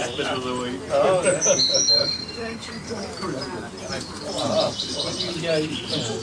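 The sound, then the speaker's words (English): Birds chirp in quick, high bursts throughout, mixed with steady background voices of people talking. “I'm not talking about the birds chirping.”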